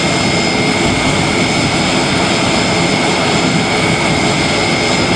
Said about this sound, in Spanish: Así sonaba ese instante en el que el avión del Ejército del Aire aterrizaba en Madrid con uno de esos papamóviles.